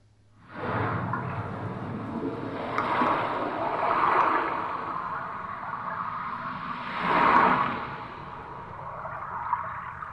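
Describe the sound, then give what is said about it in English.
Small seawater waves break over an underwater hydrophone: a steady, muffled rushing hiss that swells into a few soft surges before settling back, with no voices. “So what you hear are these little waves, but coming from many feet away and actually breaking over the hydrophone.”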